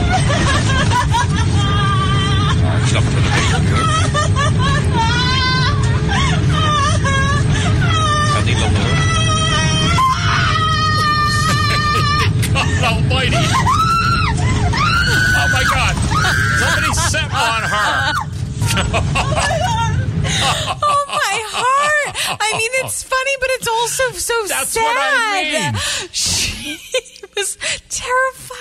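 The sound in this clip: A panicked woman screams and wails hysterically aboard a flight in storm turbulence. Her high, wavering cries go on almost without pause over a low rumbling drone, with other voices and babble around her.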